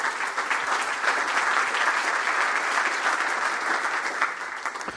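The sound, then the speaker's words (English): An audience gives a warm round of applause to welcome guests onto a conference panel. The clapping is dense, sustained and steady throughout, and begins to thin only at the very end. “I have no better than two better guests than we can have for the next half hour, and let's give them a warm welcome.”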